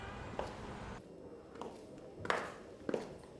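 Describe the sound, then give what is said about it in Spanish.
High-heeled footsteps of a downstairs neighbour walking around her flat: four faint, hard taps at an uneven pace, each one brief and clicky. “¡No! ¡Es mi vecina de abajo caminando! ¡Tacones, no!”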